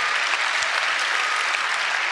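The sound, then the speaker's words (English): An audience breaks into applause, dense and even clapping that holds a steady loudness throughout. “And I think we should just pause and applaud our God, who is the great physician and always has the final last word.”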